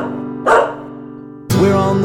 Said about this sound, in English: Down on Grandpa's farm there is a little black dog. The dog makes a sound like this.